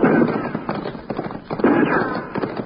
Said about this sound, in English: Now those shots are coming from three directions. Both sides and straight ahead.